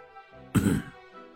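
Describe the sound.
A man's light, soft cough: a single short burst rising briefly above an otherwise quiet background.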